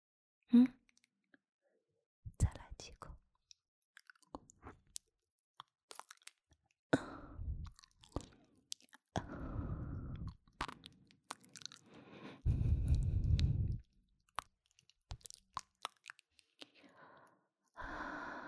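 Crunchy bites and chewing of tasty food, a series of short crisp crunches that then give way to longer, denser bursts of chewing, separated by quiet gaps and soft breaths.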